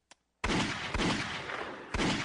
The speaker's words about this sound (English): Jesus. Just gonna shoot me in front of my friends.